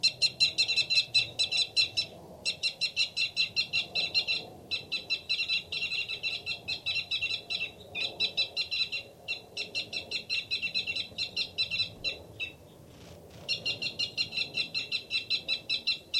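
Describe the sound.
A male bird gives a fight call: rapid, high-pitched chirps repeated in fast trains, with many bursts separated by brief pauses. The calls are fairly loud and carry on steadily with no voices.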